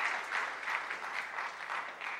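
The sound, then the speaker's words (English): Audience applause at a church service: many hands clapping steadily and loudly through the whole clip, with no talk over it. “Can we give Meredith a round of applause?”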